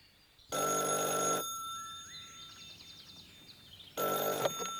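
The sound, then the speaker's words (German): A telephone rings in two bursts of bright, harmonic bell tone separated by a long quiet pause, with the second ring starting near the end. No one speaks. “Telefon für dich.”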